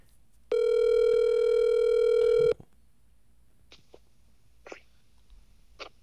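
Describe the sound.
A phone call rings out while waiting for an answer: one long, steady electronic ring tone lasts about two seconds, then quiet with a few faint clicks.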